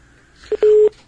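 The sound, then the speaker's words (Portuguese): Telephone line tone after a dropped call: one short beep, then a longer steady mid-pitched tone, both clear above a faint background hiss, with no voices. “Perdemos o contato com o João Ricardo Toninho. A gente vai tentar ligar novamente para o João”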